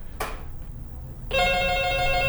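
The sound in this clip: A telephone call over a mobile line: after a soft click, a bright, steady electronic ring starts about halfway through and holds at an even level to the end, over a low background hiss.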